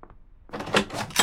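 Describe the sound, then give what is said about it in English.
A door being opened: a short mechanical latch clack followed by a few loud rattling, clattering bursts, with no speech. “I'll get the door.”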